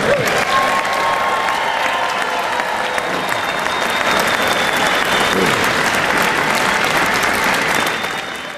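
A crowd applauds to welcome home Honor Flight Syracuse veterans returning from a trip to DC. The clapping is dense and loud and holds steady for the whole stretch, with faint cheering mixed in, then eases off slightly at the very end.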